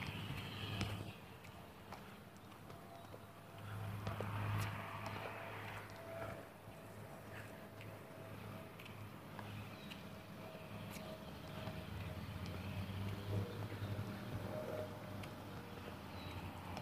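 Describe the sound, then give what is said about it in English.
A lawn mower runs in the background on a morning, its engine a faint, steady low drone that continues without a break and with no voices over it. “The mower is out running this morning.”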